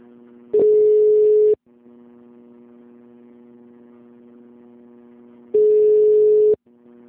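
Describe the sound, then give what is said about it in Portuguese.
A transfer tone plays while a caller waits on hold on a health insurer's customer service line: a low, steady electronic hum with two louder, higher beeps of about one second each, spaced several seconds apart. “Por favor, aguarde. Sua ligação será transferida para um de nossos atendentes.”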